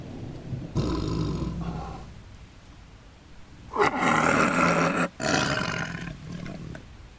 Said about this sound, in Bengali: ঠিক সেই সময় খুব কাছেই বাঘের ঘন ঘন চিৎকার আবার শুরু হলো